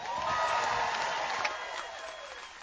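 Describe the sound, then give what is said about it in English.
Crowd applause and cheering greet a speaker welcomed to the podium at the Harkin Steak Fry, a political gathering; dense, steady clapping with scattered whoops holds for a couple of seconds, then thins and tapers toward the end. “Please welcome to the podium, let's hear it for Ruth Harkin.”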